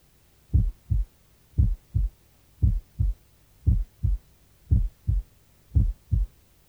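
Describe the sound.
Six regular lub-dub pairs of a normal heart at the apex, dull low thuds in a steady rhythm, the second sound in each pair softer than the first, over a quiet background hum.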